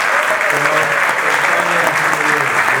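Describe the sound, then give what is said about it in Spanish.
Audience applause at a health movement's assembly: dense, steady clapping from a crowd that holds at an even, loud level for the whole clip. “Un aplauso para la gente del MSP.”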